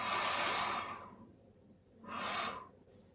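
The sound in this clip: Slow, deep breathing during a mindful pregnancy breathing exercise: two soft, airy breaths, the first long and drawn out, then a quieter pause and a shorter second breath, faint and with no talking.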